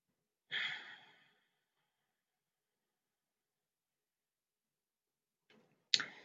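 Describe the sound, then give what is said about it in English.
A long, slow, deep breath taken to center oneself during a relaxation exercise: a soft airy exhale early on, then silence, then a second, sharper breath near the end. “we're going to begin by taking a long, slow, deep breath in order to center ourselves.”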